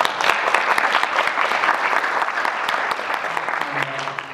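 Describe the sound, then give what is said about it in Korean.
An audience at a Korean church seminary gathering applauds to welcome a director, with sustained, fairly loud clapping that eases slightly toward the end as a voice comes in. “그래서 오늘 원장이 같이 제가 모시고 왔는데 우리 박수 한번 보내주시고”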